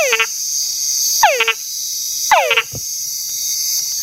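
Frog calls from a male whining to attract females, sometimes with added chuck notes: three descending whistled whines, the last followed by a brief low chuck, over a steady high insect drone.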